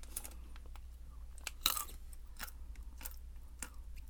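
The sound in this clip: Nuts being chewed in an ASMR segment make sparse, crisp crunches, with a few sharper bites among quieter mouth sounds. The chewing is soft and close, with no talking.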